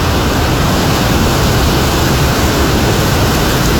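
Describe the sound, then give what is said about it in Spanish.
The Tomebamba river runs at high water in a steady, loud rushing roar. The dense churning flow does not let up and no voices are heard. “8:30 p.m, podemos observar el río Tomebamba con un caudal bastante elevado.”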